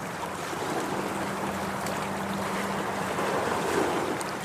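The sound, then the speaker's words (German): Water of the river Elbe at Hamburg: a continuous wash of waves with wind noise, steady throughout, and a low hum running beneath it partway through. “Hier hören wir sie.”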